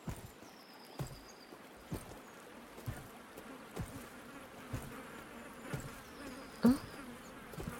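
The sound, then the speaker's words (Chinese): Flying insects buzzing in a forest: a faint, thin, high whine drifting in and out, with soft ticks about once a second and one louder knock near the end. “有虫子的声音吗？树林里有飞虫不是很正常的吗？”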